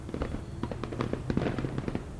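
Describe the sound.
Fireworks bang and crackle at night over a snowy landscape, with a dense, continuous run of quick pops and crackles at a fairly even, moderate loudness.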